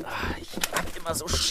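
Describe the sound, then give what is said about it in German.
An owl at a window makes soft coo-like calls and a brief flutter of wings, mixed with a person talking. “Oh, da ist eine Eule am Fenster.”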